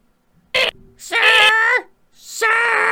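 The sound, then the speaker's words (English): A voice imitates the old, squeaky car horn of a busted sedan held down by an impatient driver. It gives three loud, nasal honks: a short one, then two long, drawn-out blasts. “So it's got an old squeaky horn, and she's just laying on it because she's impatient. It's just like,”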